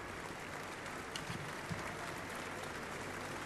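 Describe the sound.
Applause from a concert hall audience as symphony orchestra musicians take their places: a dense, even patter of many clapping hands, fairly faint and unbroken throughout.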